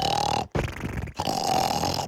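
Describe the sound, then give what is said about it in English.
Loud, rasping snoring: harsh, rattling breaths in a few long pulses, heard alone without talk. “So your snoring will go from this”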